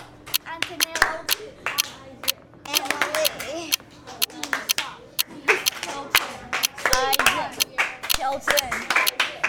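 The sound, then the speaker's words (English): Children clapping the rhythms of their names, sharp handclaps in quick, uneven bursts from several children at once, mixed with overlapping children's voices talking throughout. “Turn and tell your neighbor the rhythm to your name. Don't forget to clap.”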